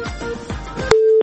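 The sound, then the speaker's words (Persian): A phone line tone after a call from Khost dropped: a short, steady electronic beep, preceded by a few brief noisy bursts on the line. “وحید جان، وحید آقا صدای ما را داری؟ متاسفانه که تماس وحید جان از خوست قطع شد”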